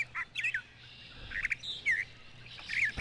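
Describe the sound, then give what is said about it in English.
Spring birds sing in a scattering of short, bright chirps and tweets, irregular and fairly faint over a quiet background, with a sharp noise burst at the very end. “We're listening to the sounds of spring birds in the background.”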